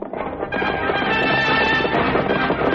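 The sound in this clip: Horse hoofbeats drum as a band of riders sweeps down out of the hills across desert sand in a radio drama. The galloping is dense and loud, a steady rumble that carries through the whole stretch without a break.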